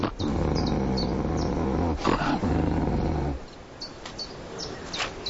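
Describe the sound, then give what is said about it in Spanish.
Wolves growling over food: a loud, low, continuous rumbling growl for a few seconds, then a sudden drop to a quieter background with a few short, higher-pitched sounds. “usa el lenguaje de los lobos. Una combinación de gemidos y gruñidos que indican quién come primero y qué parte de la pieza le toca.”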